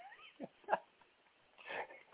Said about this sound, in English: No, that's my cat barking like that.